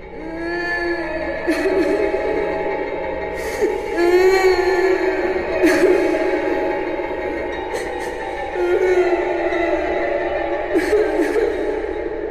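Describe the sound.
Many voices wail and sob mournfully together, like a funeral lament, in a deep mountain forest at night. The layered, wavering moans run continuously and loudly throughout, with a few sharper cries rising above the drone.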